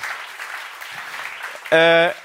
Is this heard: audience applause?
yes

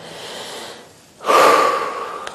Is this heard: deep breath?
yes

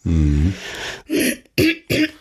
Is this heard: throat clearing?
yes

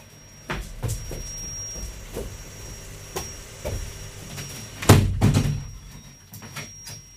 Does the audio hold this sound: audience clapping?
no

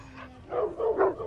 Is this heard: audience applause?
no

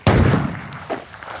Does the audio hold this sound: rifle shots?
yes

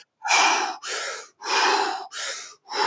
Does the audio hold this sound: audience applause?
no

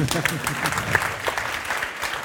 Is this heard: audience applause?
yes

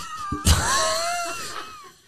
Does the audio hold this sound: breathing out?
no

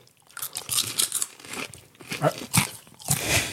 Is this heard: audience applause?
no

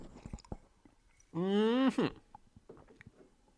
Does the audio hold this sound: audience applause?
no

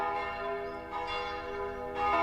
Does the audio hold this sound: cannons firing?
no

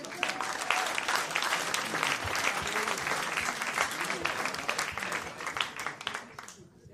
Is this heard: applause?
yes

